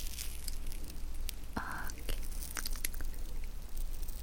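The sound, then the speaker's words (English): Peeling of a face mask lifted by its edge during a blackhead spa treatment: a faint crackly rustle with a brief brighter crinkle and a few soft ticks over low background hiss. “Okay, it's time to peel off the mask. So let me take the edge here and gently peel that off.”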